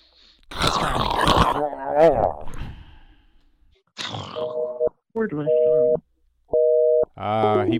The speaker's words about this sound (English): He pulled the old trick that thwarted prank callers in years gone by. Set the phone off the hook.